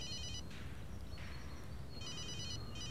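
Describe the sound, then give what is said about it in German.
Mobile phone ringing with a bright electronic trill in repeated bursts, one at the start and two more near the end, over a steady low rumble. “Dein Handy. Entschuldigung, ich hätte es gleich ausstellen sollen.”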